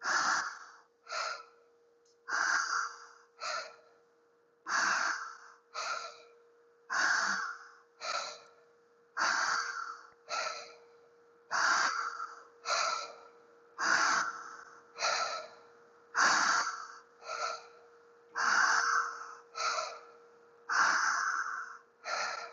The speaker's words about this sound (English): Belly, chest, exhale. Belly, chest, exhale. Careful not to pause between the breaths.